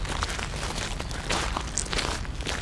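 Footsteps of people walking over toward lions behind a safety pane, a steady shuffling tread buried in dense, hissy background noise.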